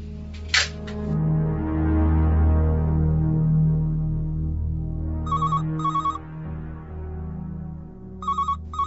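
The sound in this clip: An electronic telephone rings twice, each ring a pair of short trilled pulses, over a steady low hum, with a sharp click earlier.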